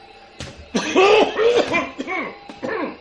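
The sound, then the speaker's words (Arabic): A man, the master of a house, coughs in a rough, voiced run of a few harsh bursts, fairly loud and heard alone without other talk. “إيه هو لما يكح يبقى عايزك؟”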